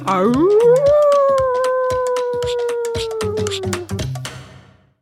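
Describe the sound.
A human voice imitating a dingo howl: one long, loud howl that climbs in pitch at the start, holds a steady tone for several seconds, then slowly sinks and fades.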